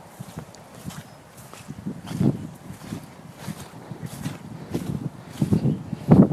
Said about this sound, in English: I'm going to go and walk in the fields. It's so squidgy around here.